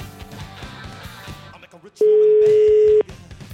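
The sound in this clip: A telephone call ringing out, heard as one steady mid-pitched tone lasting about a second, which follows a stretch of voices and background sound.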